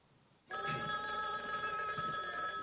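A telephone rings in a hallway, a bright, steady electronic trill that starts abruptly after a moment of quiet and keeps sounding without a break to the end.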